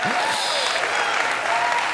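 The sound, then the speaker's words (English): A church audience claps for Pentecost Sunday. The applause is a steady, dense wash from start to finish, with a voice briefly audible over the clapping. “I know some of you don't know what you're clapping for yet, but we'll get to it.”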